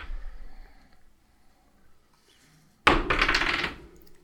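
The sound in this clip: Dice rolled for an attack during a tabletop game: after a near-silent stretch, a sudden rattling clatter bursts out and tumbles for under a second before stopping.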